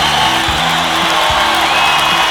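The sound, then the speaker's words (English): A crowd cheers wildly in a loud, continuous roar, with a sustained hiss of voices and a few whistle-like tones riding on top throughout. “The crowd goes wild, as they always do.”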